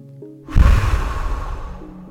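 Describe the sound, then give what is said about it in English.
A deep breath blown out forcefully: one long, breathy whoosh that starts abruptly and slowly fades over about a second and a half, with soft steady tones in the background. “So then you take a deep breath. And you blow out.”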